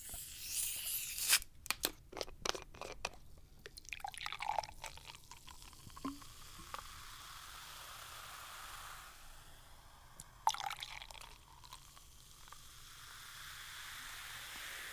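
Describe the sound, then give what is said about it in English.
Sugary British orange soft drink being opened and poured: sharp crackling snaps at the start, then a long soft fizzing hiss, with a second brief burst of crackle later on. “it's British and it's full of sugar and rots your teeth. All right, let's crack it open.”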